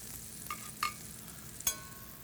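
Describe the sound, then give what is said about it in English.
Quiet sizzle of an egg frying in a pat of butter in a skillet, a soft continuous hiss broken by a few brief sharp clinks. “the other thing we can do is fry up our egg. I'm going to fry this egg up in a pat of butter.”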